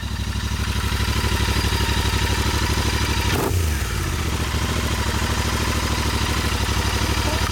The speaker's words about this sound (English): 6 hours on the bike. 134 miles. Talking of your motorcycle,